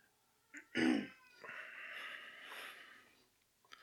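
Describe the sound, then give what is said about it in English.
A domestic cat makes a faint vocal sound, a short snort-like cry followed by a drawn-out, meow-like call lasting a couple of seconds, heard alone without talk. “I'm sorry if our cat's coming through on this.”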